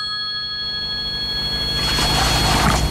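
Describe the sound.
A phone rings with an incoming call, giving a steady, high electronic tone held over a noisy background that grows louder toward the end.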